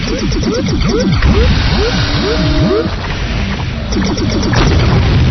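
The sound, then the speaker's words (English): A missile fires and explodes on enemy ships in a video game: dense, loud electronic effects of rapid rising and falling sweeps layered with booming hits, running continuously and busy throughout. “I fired a missile there and on the red ship.”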